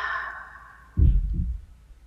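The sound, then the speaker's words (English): A single exhale out through the mouth during a guided breathing exercise: one soft, breathy, low rush lasting under a second, following a faint sustained tone that fades away. “And I invite you to take an inhale in through the nose. Exhale out through the mouth.”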